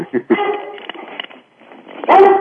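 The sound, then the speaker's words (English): A Weimaraner dog in an office gives a few short, high, whiny barks and yips, the last burst the loudest and sharpest. “there goes my dog here, my mascot, Warner Runner. He's getting his exercise of the vocal cords.”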